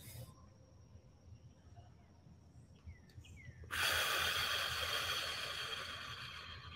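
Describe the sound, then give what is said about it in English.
A long cleansing exhale out through the mouth during a guided breathing exercise: quiet near silence, then a sudden loud, breathy hiss that fades slowly over a few seconds. “Breathe out through your mouth, a nice cleansing breath. Again.”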